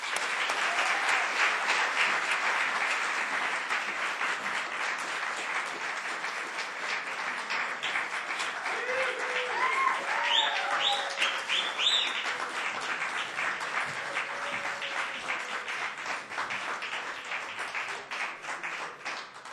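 Audience applause welcoming a band onstage: dense, steady clapping that stays loud from start to finish with no break.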